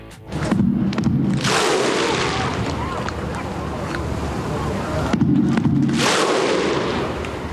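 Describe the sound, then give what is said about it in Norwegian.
Thousands of Icelandic fans welcome their national football team home after Euro 2016 with the Viking thunderclap, two booming drum-and-clap hits several seconds apart over a loud, sustained roar of the crowd. “Ja, det var også viking-inspirert. Med to trommerslag og et klapp over hodet, mens de ropa «ho!».”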